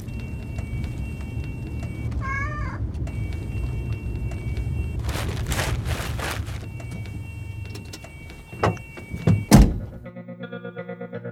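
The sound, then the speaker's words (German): A car door opens and shuts in a snowy winter scene: a few dull thunks and clunks over a steady low rumble, followed by a sustained buzzing hum. “Er öffnete ihr die Tür und ging dann herum auf die Beifahrerseite.”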